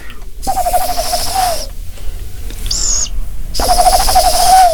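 A man imitates the call of a mother tawny owl at a wildlife care centre. Two long, loud, wavering hoots are separated by a pause, with a brief high call between them.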